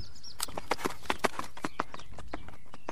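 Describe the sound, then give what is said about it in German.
Hoofbeats of an Icelandic horse at a gallop: many sharp hoof strikes in uneven groups, moderately loud and crisp, with no voices over them. “Und was war das jetzt? Das war Galopp.”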